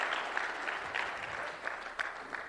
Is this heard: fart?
no